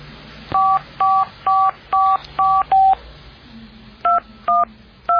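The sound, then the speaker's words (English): Touch-tone dialing of a dial-up modem: nine short, steady two-pitch beeps, six in a quick even run, then a pause and three more. The beeps are loud over a faint hiss, with no talk. “I'm running it through the dial-up”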